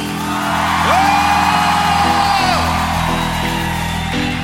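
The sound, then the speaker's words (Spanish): An audience shouting and whooping together at a worship service, a loud, dense roar of many voices that holds steady for several seconds, with one rising whoop standing out. “¡Vamos, grita!”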